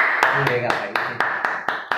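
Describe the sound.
Hand claps in a quick, even rhythm: about eight sharp, loud claps, with a brief voice heard near the start.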